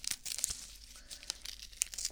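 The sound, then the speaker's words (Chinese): Crinkling and tearing of the adhesive tape applied after an injection, as it is handled: irregular soft crackles and a few sharper rips, fairly faint, with no talk. “打完针之后贴到你手上的胶带，对，现在用的都是这种胶带了”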